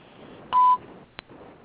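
A single telephone keypad tone from a wrong button pressed during a live radio phone call: one short, steady beep, then a brief click, over faint line hiss.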